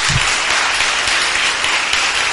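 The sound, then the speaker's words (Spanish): Loud, dense applause at a press conference for a trial bike world champion, a continuous wash of clapping with no pauses. “Un fortísimo aplauso porque es cartagenero.”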